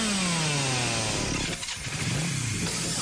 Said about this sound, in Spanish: Si el rugido del motor de un auto o moto te eriza la piel, este lugar es para vos.